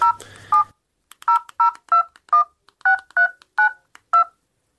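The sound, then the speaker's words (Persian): Telephone number being dialed on a touch-tone keypad: a string of short, bright electronic beeps at an uneven pace, loud and clean, with a brief low hum at the start. “تو باش که اول به خاله شیما یک زنگ بزنم. شمارش چی شد؟”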